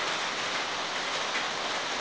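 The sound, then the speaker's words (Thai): Rain falling on a roof, a steady, dense hiss of drops that holds an even level throughout with no voices. “ฝนตกลงมากระทบหลังคาเรารู้สึกว่ามันรบกวนการฟัง”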